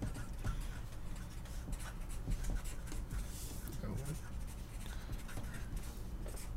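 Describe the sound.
A pen scratches across paper in quick, soft strokes, faint and continuous, while people talk.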